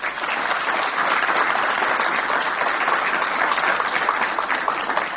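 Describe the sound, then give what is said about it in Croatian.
An audience applauds with loud, dense, continuous clapping that holds steady from start to finish. “Zaista zaslužuje jedan veliki aplauz.”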